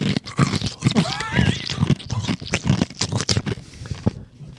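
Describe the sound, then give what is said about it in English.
Someone eats ice, crunching the cubes between their teeth: many loud, irregular, crisp crunches and chewing bursts follow one another in quick succession. “That sounds so weird on the headphones. I wish you had some on. Some ASMR ice eating.”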